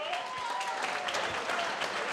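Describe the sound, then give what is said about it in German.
An audience at a folk festival gives faint, steady applause, a continuous patter of many hands clapping without a clear start or end. “Einen riesengroßen Applaus für Dieter Horvath, meine Damen und Herren.”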